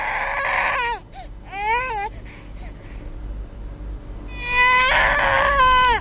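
A two-week-old baby cries in high, wavering wails that come in separate bursts, with softer whimpers and pauses between them and louder crying near the end.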